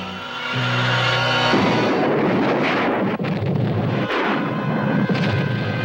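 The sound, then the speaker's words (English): Explosion of an oil company's main storage tank: a loud, sudden blast that swells into a sustained, roaring rumble, with further crackling bursts rolling through the noise. “The main storage tank of the Japan Oil Company has exploded.”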